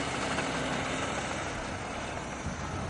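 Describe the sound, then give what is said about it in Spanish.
A running engine gives off a faint, steady low rumble with an even noisy hum, holding level without any clear surge or change. “Y yo lo arranco el motor, ¿eh?”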